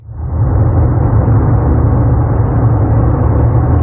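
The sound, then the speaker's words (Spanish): Steady low engine and road rumble from inside a pickup truck's cab, driving on a road in Utah toward Arches National Park; a loud, constant deep drone with no pauses or voices. “Hoy les mando la postal sonora a bordo de una pickup.”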